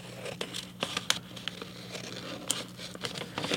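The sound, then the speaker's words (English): Scissors snip through folded paper, many faint crisp cuts and rustles following one another in an uneven rhythm. “So I'm going to cut here and I'm going to follow.”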